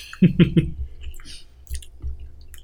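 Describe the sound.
People chewing while eating cinnamon: three loud, wet, squishy bites close together at the start, then softer, scattered chewing and mouth sounds.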